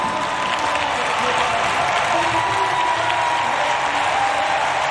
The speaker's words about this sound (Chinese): 收获了全场的掌声。